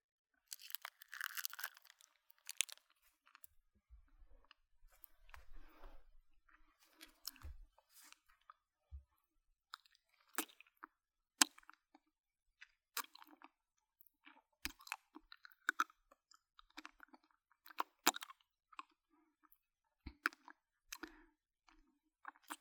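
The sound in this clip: Someone licks and eats candy: many soft, wet mouth clicks, smacks and small crunches, scattered irregularly and very faint throughout, with no talking.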